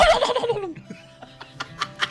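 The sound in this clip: A voice imitates a turkey gobble: a loud, rapid, warbling burst at the start that trails off into softer, scattered clicks and short throaty sounds, with no talk.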